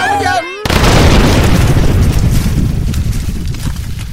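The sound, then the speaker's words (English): A glowing red-hot book explodes in one sudden, loud blast that cuts off a brief voice and rolls into a sustained, roaring rumble that fades slowly. “Hey, everyone, the book! It's glowing red hot! I think it's gonna blow!”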